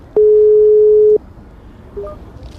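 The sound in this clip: A telephone ringing tone as a call is placed: one steady mid-pitched beep lasting about a second, followed by a few faint, short tones.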